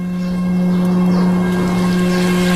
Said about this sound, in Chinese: 唯有村口的石桥流水还在为历史留存着印证。